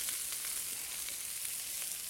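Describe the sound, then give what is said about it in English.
Vegetables for stock sauté in a stock pot with a steady, fairly faint sizzle and crackle that holds even throughout, with no talking. “we're going to take all of this and we're going to come over here to our pot and get this all going.”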